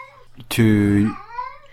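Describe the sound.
A cat meows once, a single drawn-out, fairly loud cry lasting about half a second, with faint murmuring around it.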